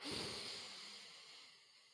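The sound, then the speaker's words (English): A slow, deep inhale, drawn in as a soft airy hiss that is loudest at the start and fades gradually over about two seconds, faint and with no voice. “And I want you to inhale deeply, really deep, for 4 good seconds.”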